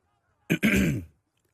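Throat clearing from a dry throat: a short rasping burst followed right after by a longer, rougher voiced rumble, both fairly loud with no talk over them.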